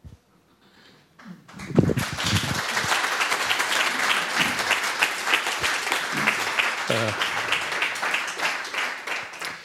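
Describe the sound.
Audience applause after a talk at an event, bursting in after a near-silent opening and settling into dense, sustained clapping that stays loud to the end.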